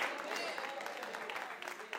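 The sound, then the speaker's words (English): Church audience giving a hand clap of praise: soft, dense clapping blended with voices and cheering from the crowd, brief and fairly faint. “Come on, give the Lord a hand clap of praise.”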